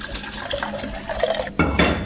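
Water is poured into a pot of sushi rice, giving a continuous rushing, splashing hiss that swells noticeably louder and fuller toward the end.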